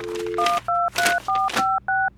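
Phone number dialed on a keypad: a steady dial tone gives way to a quick, evenly paced run of bright two-note beeps, each a short, loud tone separated by brief gaps.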